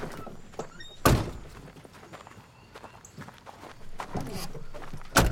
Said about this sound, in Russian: распахивает дверь и выбирается из машины